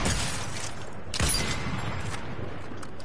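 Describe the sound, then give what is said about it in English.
Gunfire in a battle-royale style shooting video game: one loud shot burst stands out near the middle over a steady, noisy din of game sound, with no talking. “Oh, I'm going to shoot Rick Sanchez in the head. Oh, wait. Was that you? Yes. Okay. I need to engage.”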